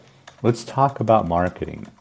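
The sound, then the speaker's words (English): Typing on a computer keyboard makes faint clicking taps in the background, mostly buried under a person talking throughout. “if you hear some typing in the background, I'm guilty. I'm multitasking.”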